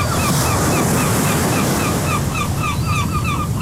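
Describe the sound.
Ocean surf and wind roar steadily, with many short, repeated seagull cries calling over the water throughout.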